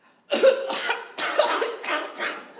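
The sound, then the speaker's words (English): Pretend choking coughs, as if a bug went down the wrong way: a quick run of several harsh, throaty coughs with a raspy throat-clearing edge, loud and alone. “you take a deep breath like you're going to answer, and then you pretend you choked on a bug”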